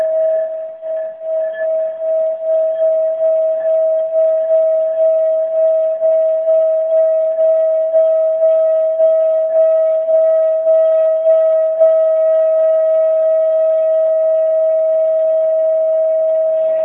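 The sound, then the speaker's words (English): A high-octave singing bowl rings with a sustained, pure tone and faint overtones. It pulses gently at first, then holds steady for the whole span. “Okay, so here's, and I tell people, like, watch your toes, like, curl them under, but here's a high octave bowl.”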